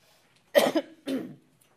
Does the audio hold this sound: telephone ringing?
no